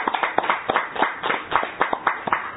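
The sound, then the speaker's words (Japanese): Hands clap in celebration of a birthday greeting sent to Osaka and America. Many quick, fairly even claps follow one another in a steady rhythm, a little muffled, with no talk. “よかったら皆さん、お年間からね、大阪とアメリカに向けてですね、お祝いの拍手をですね、よかったらお届けいただきたいと思います。”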